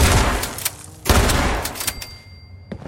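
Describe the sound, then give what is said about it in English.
Gunfire in a video game: several sharp, booming shots burst over a noisy rumble, and a thin high ringing tone lingers near the end. “Well, there used to be a guy. I just blasted him in the face.”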